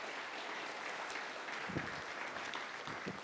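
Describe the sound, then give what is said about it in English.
A church audience gives a warm round of applause as a couple comes up to the front. The clapping is continuous and even, a dense wash of many hands with no pauses. “Can we give them a warm welcome as they come up?”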